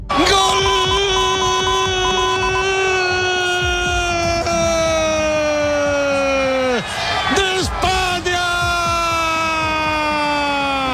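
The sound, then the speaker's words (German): A night crowd celebrating Spain's football World Cup final win over Argentina: loud, sustained, wailing siren-like horn tones dominate, with crowd noise beneath and a couple of brief dips near the end. “Ja, so klang das in der Nacht bei den spanischen Kollegen. Spanien ist Fußball-Weltmeister.”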